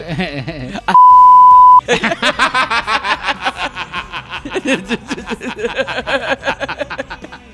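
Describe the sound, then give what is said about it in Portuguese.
A censor beep covers a name during casual Portuguese talk: a single steady, mid-pitched electronic tone lasting about a second, cutting sharply into the speech, with people talking loudly before and after it. “Vou falar o nome dela aqui, vai ter um bip.”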